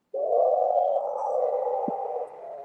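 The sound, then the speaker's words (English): A howler monkey gives one long, deep, droning howl that lasts about two and a half seconds. The howl is loud and steady in pitch, heard alone without talk. “the howler monkeys. Yeah. That's the sound of the dinosaurs from the movie.”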